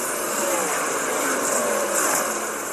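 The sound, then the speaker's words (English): Race car engines at Bristol in a video game, a steady, buzzing drone of several engines at high revs, holding a fairly even level throughout with no talk. “the pace truck is in, and we're racing at Bristol.”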